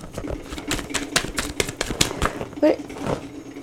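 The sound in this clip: A tarot deck being shuffled gives rapid, irregular papery clicks and flaps, a dense run of sharp card snaps of moderate loudness with a slightly heavier flurry near the end.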